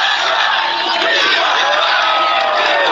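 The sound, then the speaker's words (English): A rally crowd in Hialeah, Florida, chanting and shouting together, a loud, sustained roar of many voices that stays at full strength for the whole three seconds. “He's holding up the shirt, and the crowd is chanting it.”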